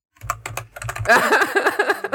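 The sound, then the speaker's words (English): A search is typed on a computer keyboard in a quick, dense flurry of key clicks that grows busier and continues to the end. “You gotta type in Digimon. Matrix Evolution Digimon.”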